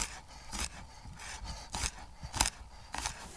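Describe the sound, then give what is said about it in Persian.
A kitchen knife chops four or five garlic cloves, giving a few sharp, separate knocks with brief dry scraping between them, while herbs and legumes cook for a Persian ash. “تو این فاصله که سبزی و حبوبات دارن با هم پخته میشن، من میام 4-5 تا حبه سیر رو خوردش میکنم”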